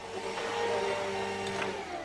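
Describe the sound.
A vacuum cleaner runs on the stairs of a wedding chapel lobby, giving a steady, even motor whine and hum that holds at one level for the whole stretch, with no voices.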